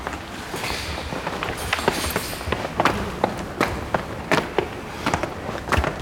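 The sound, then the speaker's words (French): Footsteps climb a stairway in an old prison, a series of many hard, distinct steps in a slightly uneven rhythm, moderately loud over a faint background wash. “On peut continuer à monter les escaliers.”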